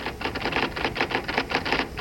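A typewriter clacks in a suburban home late at night: a quick, steady run of many sharp keystrokes, closely spaced and fairly even in loudness, with no voices.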